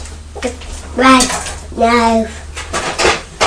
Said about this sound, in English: I don't think I'm using the right knife to cut that, Thomas. I'll just go and get the bread knife.